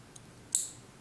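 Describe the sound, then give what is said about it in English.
An IV catheter needle snaps back into its plastic housing: a faint tick comes first, then one crisp, bright click, with no talk. “You hear that little click? Once you've done that, you've retracted that needle completely, and I can't actually pull that back or anything anymore.”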